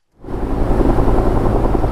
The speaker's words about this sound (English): All through the weekend, helicopters buzzed above the canyons and mountain ridges in Ventura and Santa Barbara County as firefighters battled the raging blaze below.